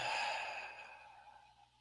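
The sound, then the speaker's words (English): A single long, deep exhale during a calming belly-breathing exercise, a soft, airy hiss that starts strong and fades steadily to near silence, with no talk. “Put your attention on your breath for a moment. Put your hand over your heart. Do deep belly breaths,”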